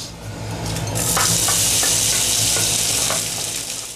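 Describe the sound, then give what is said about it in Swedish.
Herring and other ingredients simmering in a frying pan, a loud steady sizzle that surges up after a quieter start, with a few soft stirring scrapes. “Vi låter fisken och de andra ingredienserna sjuda i pannan medan vi diskuterar strömmingens vara och icke-vara.”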